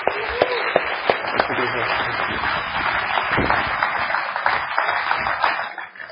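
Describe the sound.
A church audience applauds a speaker being welcomed up to preach at a service. The clapping is dense and steady for about six seconds, then thins out at the very end.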